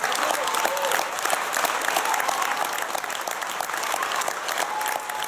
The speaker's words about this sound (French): Et là, c'est l'ovation.